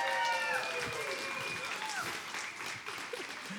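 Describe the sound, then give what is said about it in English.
A church audience applauds to welcome its online listeners, a steady wash of clapping that holds through to the end, with brief voices rising at the start. “Can you hold your applause just for a second? Because I want to do something we do every week, and that is I want to welcome our online church podcast family. Come on, show your love to those who are listening online right now and online.”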